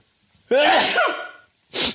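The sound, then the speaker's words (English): A single loud human sneeze bursts out sharply and fades over about a second, followed by a short, breathy sound. “Hold on, I gotta sneeze, guys. I don't know if there's ever been a sneeze on a podcast.”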